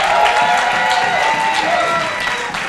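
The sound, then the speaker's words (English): An audience applauds a speaker at a church gathering with dense, sustained clapping and crowd noise at a loud, steady level that eases slightly at the end. “Come on, give us joy another big hand tonight.”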